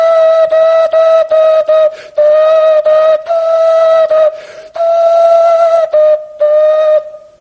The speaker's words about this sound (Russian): Эти свистульки сделаны из кокосовых орехов. Всего-то два отверстия.